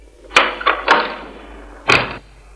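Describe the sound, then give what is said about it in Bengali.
Door sounds come as someone waits to be let in. Four sharp knocks or clunks are heard: three close together, then a last louder one after a pause, over a low steady hum. “দরজা খোলো।”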